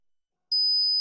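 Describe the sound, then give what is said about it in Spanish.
A steady, piercing high-pitched beep imitating tinnitus ringing begins after half a second of silence and holds at a constant pitch to the end, alone and fairly loud. “Es molesto, ¿verdad? ¿Te imaginas oírlo cada noche? Sonofin te puede ayudar porque Sonofin con ginkgo biloba y melatonina reduce los pitidos”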